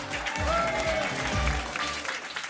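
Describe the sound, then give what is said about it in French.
A studio audience applauds a guest in an ovation, a brief full burst of clapping and cheering with a few voices mixed in, loud and fairly even before easing slightly. “Faites une ovation à l'incroyable Céron.”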